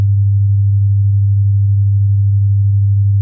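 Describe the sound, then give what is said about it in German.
A steady 100-hertz tone said to ease nausea, a pure low hum held at constant pitch and loudness for about three seconds, alone with no other sound. “Es ist ein bestimmter Ton, ein 100-Hertz-Ton. Und der klingt so.”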